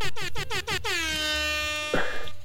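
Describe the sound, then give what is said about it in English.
Air horn sound effect blaring loudly: a rapid burst of short honks gives way to one long sustained blast, with a final short burst at the end. “Where's the air horn?”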